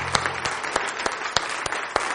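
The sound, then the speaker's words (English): Congregation clapping hands during a worship service, a dense, steady patter with sharper accented claps landing at a regular beat throughout. “Let's give my hand clap tonight.”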